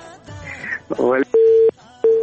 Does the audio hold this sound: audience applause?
no